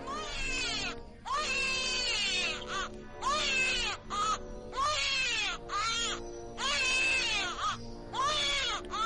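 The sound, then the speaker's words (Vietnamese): A newborn baby crying plaintively: many repeated wailing bursts with short gaps between them, loud and tonal, with no other voices. “Bỗng nhiên, có một tiếng trẻ sơ sinh khóc lên nỉ non. Cái tiếng trẻ sơ sinh khóc lên mà nghe đến rùng mình, phát ra từ miệng đứa bé Lưu Tứ đang ôm.”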